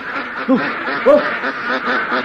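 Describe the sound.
Ducks quack as they run off: a few nasal calls rise above a steady, busy background noise.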